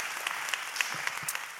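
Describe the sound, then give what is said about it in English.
An audience at a Sunday church gathering applauds with brisk, steady clapping that fills the whole short stretch without a break. “Let's give it up for the people that are out in the lobby and at the Fresca tent as well. Give it up for them, everybody.”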